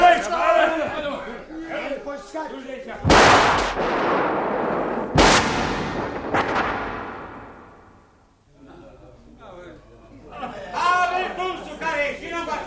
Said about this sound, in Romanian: În fondul grădinii, împușcat! Repede!